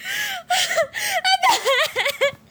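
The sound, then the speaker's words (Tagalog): A woman crying in a tense scene among hospital patients: loud, voiced sobbing wails in short bursts whose pitch swoops up and down, with breathy gasps between them. “Habang papalapit si Nurse Mary at Abel, ay maririnig nila ang iyak ni Ora.”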